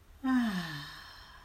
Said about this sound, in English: And one last time, deep breath in. And loud exhale.